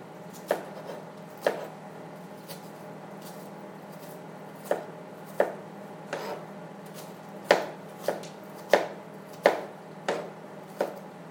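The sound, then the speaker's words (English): Knife chopping a layered onion on a cutting board for spaghetti sauce: sharp, crisp chops at an uneven pace, some strong and some softer, over a faint low hum. No voices. “This onion right now is just cutting itself because of the way I, you know, did the layers, each individual layer.”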